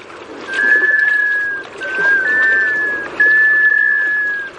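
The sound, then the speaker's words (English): A male black scoter sea duck gives its whistle call: a few drawn-out, plaintive, steady-pitched whistles with brief gaps between them, clear over a soft background hiss. “That's the call of a male sea duck, a black scoter.”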